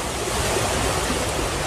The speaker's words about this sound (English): That's the sound of a Logan County stream raging out of its banks overnight and down a country road as residents sit on the porch and watch.